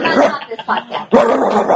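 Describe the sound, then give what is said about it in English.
Small-dog yaps used as a sound effect to cover a curse word: a few short, high yips and barks sit over and between bits of talking. “we decided that we're gonna put little yaps over any of the curse words.”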